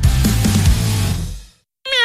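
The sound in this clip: A cat meows once, briefly, at the very end, a short tonal cry following a louder, noisy, unvoiced stretch and a moment of silence.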